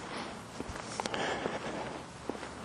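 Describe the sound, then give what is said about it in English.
Footsteps walking through the woods at night, a few uneven footfalls over a constant noisy background with no talking. “Taking a walk at night. Man, it keeps on like stuff is in the woods.”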